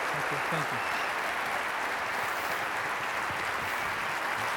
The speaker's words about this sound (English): give a warm Colorado welcome to anyone. Masab Hassan Youssef, would you please give him a hand as he comes?